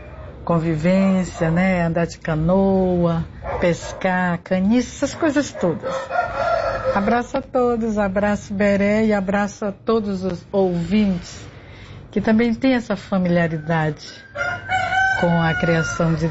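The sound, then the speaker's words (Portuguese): Roosters crowing, several drawn-out calls rising and falling under and between a person talking steadily throughout. “Olha os galos cantando.”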